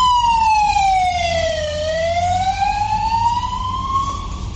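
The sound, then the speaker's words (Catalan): A fire engine siren wails at a brush fire. Its loud, steady tone glides down in pitch, then slowly climbs again, over a low rumble. “Aquest és l'ambient que ara mateix es pot sentir a l'entorn del camí de la Font de Sant Josep. Bombers i agents forestals estan treballant des de 1:15 en l'extinció del foc a uns matolls”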